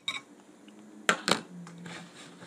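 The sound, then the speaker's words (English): Dishes clink as bread is sopped up in a pasta bowl at a shared meal: a few sharp, bright clinks, spaced apart, each fading quickly over a quiet background. “That's the bread in the pasta bowl.”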